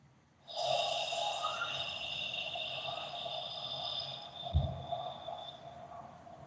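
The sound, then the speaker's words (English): A single long out-breath empties all the air from the belly and chest, a loud, breathy rush that sustains for about four seconds before fading to a softer trailing exhale. “So finally, with one out-breath, you release all of the air that you have in your belly, in your chest”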